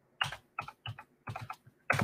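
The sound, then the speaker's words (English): Keys clatter on a computer keyboard as a phone number is typed in, in short clusters of crisp, clicky strokes separated by brief pauses. No voices are heard. “I'm gonna type in the voicemail number.”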